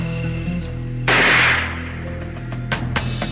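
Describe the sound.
A single loud gunshot is heard in recollections of the Algerian war. It is a sharp, broad burst lasting about half a second over a low steady hum, followed by a few faint knocks.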